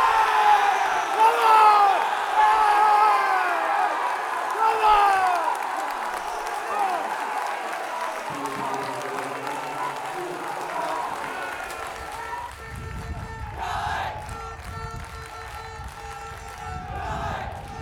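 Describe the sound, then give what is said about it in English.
Football fans cheer and shout as a crowd: a mix of voices, whoops and yells, with a steady level throughout. “Okay, those noises you hear are you, the fans”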